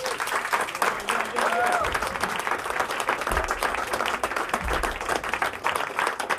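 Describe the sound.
Audience applause welcomes a pianist at a concert in Paris. Dense, steady clapping fills the whole clip at an even loudness.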